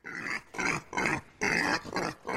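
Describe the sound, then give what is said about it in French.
A sow grunts harshly while four men drag her into a courtroom. A few rough, growling grunts come one after another in a steady rhythm, loud and alone. “La truie est alors traînée dans la salle de justice, maintenue par 4 hommes.”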